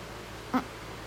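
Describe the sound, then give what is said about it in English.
A cat gives a single short, faint meow that rises briefly above a quiet background hum. “That noise was from my cat.”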